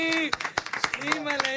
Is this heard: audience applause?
yes